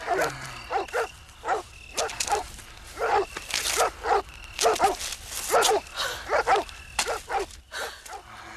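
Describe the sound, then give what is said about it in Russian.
Barking from two white dogs at the entrance of a building: a fast run of many sharp barks and yips, some overlapping, fairly loud and steady throughout. “У входа в здание мужчина с двумя белыми собаками и ружьем.”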